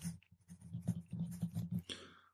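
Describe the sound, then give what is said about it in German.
Faint pen scratching on paper as notes are jotted down by hand during a tabletop fantasy role-playing game, with short irregular strokes and brief pauses between them. “Ich schreibe jetzt mal kurz meine Trefferpunkte auf.”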